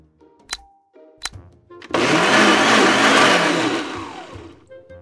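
Blender making a smoothie of coconut milk, apples, pear, spinach, almond butter and ginger at a wellness retreat: two sharp clicks, then a loud, steady whirring roar that runs about two and a half seconds before winding down.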